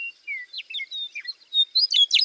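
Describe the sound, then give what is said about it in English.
A North American meadowlark sings in grassland or prairie, alone: clear whistled notes, some sliding downward, give way to a louder, busier run of chirps at the end. “In the grasslands and prairies of Canada, the U.S., and Mexico, some of the most iconic bird songs are those of the meadowlarks.”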